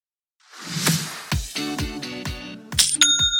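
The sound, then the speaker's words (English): Sale notification chime from a Shopify e-commerce store: a soft swoosh leads into a quick run of bright metallic, bell-like strikes. It ends in a high ringing ding, clear and fairly loud, with no talk over it. “That's the sound of another sale, another dollar, another customer on your Shopify e-commerce store.”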